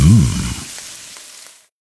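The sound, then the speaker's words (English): Spam pork sizzling in a pan: a brief, hissing sizzle that opens with a low rumble and steadily fades away within about two seconds. “Oh, hear that? That's the Spam brand singing you a love song. Spam. Sizzle, pork, and”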